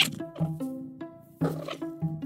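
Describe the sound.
An indoor cat mutters at birds through a window screen, making a rapid series of short, throaty, tonal chirps and murmurs that come in uneven bursts, fairly loud and close.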